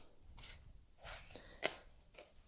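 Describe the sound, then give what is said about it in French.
A knife cuts peeled apples into quarters. The soft, faint slicing is punctuated by a couple of sharper crunchy taps, and no one speaks. “Alors, j'ai déjà épluché les pommes. Je vais maintenant les couper en quartier.”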